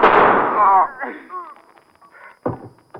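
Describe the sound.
A gunshot in a radio drama: a loud, sharp blast with a ringing tail opens the moment, then shouted voices follow.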